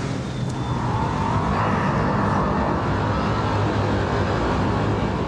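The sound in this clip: A 659-horsepower car accelerating hard from a launch-control start, its engine roaring loudly and continuously throughout.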